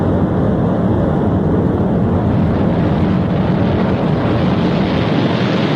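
A rocket lifting off: a steady, unbroken, loud roar with deep rumble and broad hiss, holding at the same level throughout.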